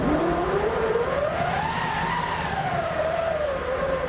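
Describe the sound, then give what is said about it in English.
A wind machine, a hand-cranked canvas-covered drum in an orchestra's percussion section, winds up with a whooshing tone that climbs steadily in pitch, peaks, then sinks slowly over a dense, continuous background. “Plus, back in the percussion section, we hear the wind-up of a wind machine.”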